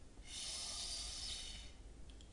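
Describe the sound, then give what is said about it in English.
Breath drawn in through a straw: a single soft, airy hissing inhalation lasting a little over a second, faint throughout, followed by near quiet. “aid in breathing is using a straw. So you take your straw, and you notice my shoulders aren't moving up and down because the air is going straight down below.”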